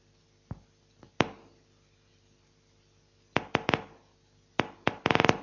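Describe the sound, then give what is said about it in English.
Recorded electrical firing of a place cell in a rat hippocampus, played back as sharp clicks. A few isolated pops come early, then a quick cluster of clicks, then a rapid burst at the end. “I'm hoping this, you'll hear a place cell actually firing. This is a genuine cell from a hippocampus firing,”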